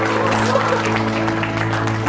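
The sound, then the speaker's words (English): Applause from about a dozen people in a room, heard in a played video of a company celebration: an even, moderate patter of clapping over a steady low hum. “It dies out. The tape dies out. The clapping dies out.”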